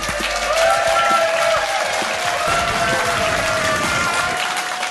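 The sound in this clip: A theatre audience at the Leicester Square Theatre applauds a comedian's entrance, a dense and steady roar of clapping that holds at full strength throughout.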